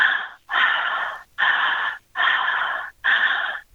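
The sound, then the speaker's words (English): Steady circular breathing through the mouth: five long, loud, airy breaths follow one another in an even rhythm with almost no pause between them, and no voices are heard. “you're doing this circular connected breath all through the mouth. It's not hyperventilation. It's just this steady.”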